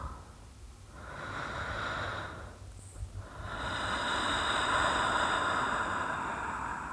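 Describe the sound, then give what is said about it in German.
Strong, deep breaths taken during a guided relaxation exercise, heard as long, breathy rushes of air that swell and ease, with a brief lull between them and no talk. “Und nimm jetzt ein paar kräftige Atemzüge.”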